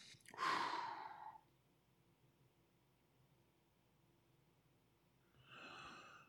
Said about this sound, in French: respire, on respire, on respire, on respire, on respire.